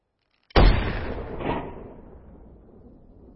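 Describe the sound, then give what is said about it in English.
A single sniper rifle shot cracks in a movie scene where the marksman fires at a distant can of beans, a sudden loud blast trailing into a long, rumbling decay with a brief swell midway. “And I want to show you a clip from a movie where a sniper is practicing his aim. And so he's firing at a can of beans way off in the distance.”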